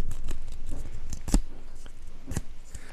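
Paper being folded by hand makes crisp rustles and creasing crackles, a series of short, irregular dry snaps and scrapes, fairly quiet and alone without talk.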